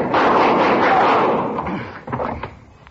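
Gunshots ring out in a tense shootout: a loud booming blast with a long, rumbling decay, then a few fainter sharp cracks.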